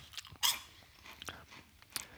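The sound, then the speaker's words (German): Crunchy chewing of cheese-flavoured Bugles corn snacks: a few sharp crunches stand out among softer, irregular mastication sounds, faint and alone. “Die crunchen gut, die riechen nach Käse, aber mhm. schmecken tun die eigentlich nur nach dem Teig.”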